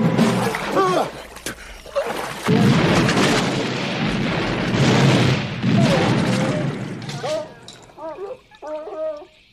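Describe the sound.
Shotgun fire at a pond at night: a heavy, rumbling wash of booms mixed with churning, bubbling water fills most of the passage, with voices at the start and end.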